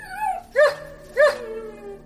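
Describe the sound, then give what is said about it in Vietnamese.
A white wolf whimpers weakly, giving two thin, high, wavering cries about half a second apart, with a softer whine just before them. “sói trắng đột nhiên há miệng kêu lên hai tiếng yếu ớt.”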